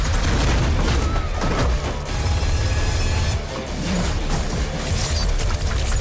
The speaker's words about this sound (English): Mama takes over one of the Gatling guns and fires. The bullets cut through human flesh and concrete alike. An explosion knocks Dredd to the floor.